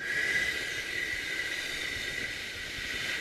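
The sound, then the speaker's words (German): A slow exhale pushed out through a small opening of the mouth gives a steady, airy hiss with a faint whistling edge. It is sustained evenly for about three seconds with no talking. “im Mund nur eine kleine Öffnung offen lässt, dass man durch eine ganz kleine Öffnung ausatmen kann, also nicht alles mit einem Schlag raus, sondern”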